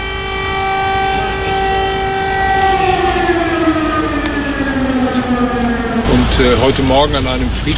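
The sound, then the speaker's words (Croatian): An air raid alarm siren sounding in a city on a quiet Sunday morning, a loud, sustained wailing tone whose pitch slowly sinks, then shifts into a rapid warbling near the end. “začula se sirena za uzbunu.”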